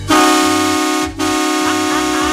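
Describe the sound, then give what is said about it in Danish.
A truck's horn honks in two loud, steady, brassy blasts, the first about a second long and the second longer, with only a brief break between them. “Han har vundet et par børns respekt, da jeg truttede i hornet på lastbilen.”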